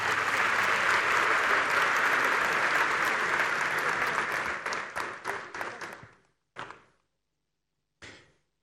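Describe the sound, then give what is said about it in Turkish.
Audience applause at an award ceremony for a family and population programme, a dense, sustained clatter of many hands that thins into scattered claps, then two isolated final claps after pauses of silence. “Büyük bir alkış efendim.”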